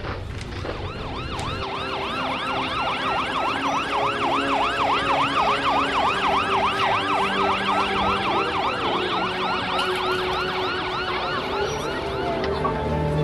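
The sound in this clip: An ambulance siren wails in fast, repeating rising-and-falling sweeps at an accident scene. The siren is steady and prominent throughout, over a low background rumble, with no voices.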